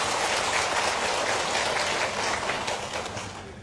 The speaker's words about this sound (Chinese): 看来大家鼓掌